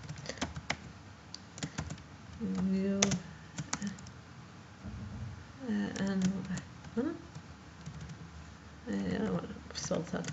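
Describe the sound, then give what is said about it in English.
Computer keyboard typing while entering text into an online encyclopedia article. Clusters of quick key clicks come in bursts, with a voice talking at intervals between and over them. “Oops, gotta type it right.”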